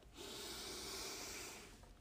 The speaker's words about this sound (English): So let's start off by taking a deep breath.